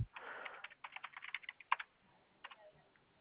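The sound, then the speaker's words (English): Typing on a computer keyboard: a quick, irregular run of many clicking keystrokes with short gaps, then a pause and a final few taps, with no talking. “Let me type in Eagle Moss.”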